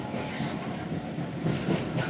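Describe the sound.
A person imitating a steam train with the voice: a steady, loud rumbling chug that runs the whole time with slight surges and no clear separate beats.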